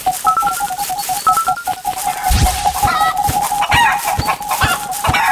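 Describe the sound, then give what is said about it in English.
Chicken clucking in a few short bursts above a steady, continuous electronic tone that runs through the whole stretch, with no voices. “away, chicken. Go away. You're not pecking me today.”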